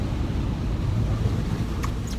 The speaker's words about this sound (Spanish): No sé si escucharon el ruido. Esa fue la laguna que acabo de pasar.